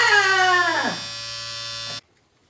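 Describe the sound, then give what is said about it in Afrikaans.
Electric hair clippers cutting hair: a steady buzzing hum that runs for about two seconds, then cuts off abruptly into silence. “Ek gaan jou hare snaak skeer.”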